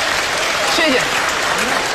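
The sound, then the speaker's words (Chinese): Studio audience applause on a Chinese television variety show featuring traditional opera: loud, dense and sustained clapping from many hands, steady throughout. “谢谢您热情的掌声”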